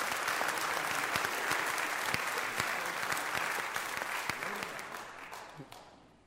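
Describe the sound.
An audience applauds to welcome a speaker at a Christian service, a dense, steady clapping that stays even and then fades out toward the end.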